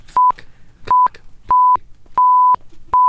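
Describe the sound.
Five loud censor bleeps cover swear words. Each is a steady, mid-pitched pure tone of a different length, cut off sharply, with brief clipped fragments of sound in the quiet gaps between them.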